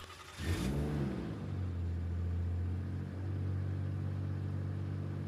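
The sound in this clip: A car engine cranks and catches at the start of a drive through Carinthia, Austria. It revs briefly, then settles into a steady, low, droning idle hum that runs on to the end.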